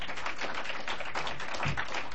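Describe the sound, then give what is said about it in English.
A small group gives a round of applause after reciting a set of oaths together. The claps are muffled and moderately quiet and come as a loose patter of sharp strokes. “You should give yourself a round of applause.”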